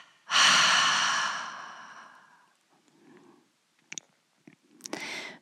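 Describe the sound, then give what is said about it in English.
A long, loud breathy exhale from a meditation breathing exercise fades away over about two seconds. Softer breaths follow, with a couple of brief clicks and another short breathy exhale at the end. “tense the body and hold the breath, double exhale.”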